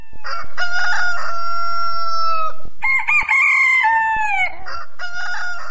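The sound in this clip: Loud rooster crowing: two long, drawn-out harmonic crows, each lasting about two seconds, with a few shorter calls around them and no voices.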